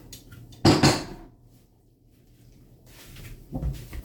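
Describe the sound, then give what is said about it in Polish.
A sugar bowl is put away in a kitchen: a brief clattering knock of crockery and a cupboard, then quiet, with a softer second knock near the end. “Chowamy cukiernicę, bo już nam nie będzie potrzebna.”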